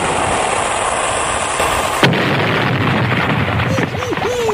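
A weapon-firing sound effect for sinking a ship: steady rushing hiss, then one sharp blast midway that gives way to a low rumble, with a few faint warbling tones near the end.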